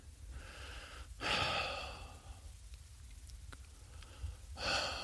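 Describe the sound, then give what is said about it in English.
A person taking breaths: two faint, airy sighing inhale-exhales separated by a quiet pause of a few seconds, with no talk. “let's take a breath.”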